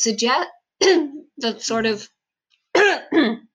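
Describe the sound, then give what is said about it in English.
A person coughs repeatedly in several harsh, rasping bursts, some paired in quick succession, separated by short silent gaps. No other sound accompanies the coughing. “I'm going to have to cut that out because I coughed a lot.”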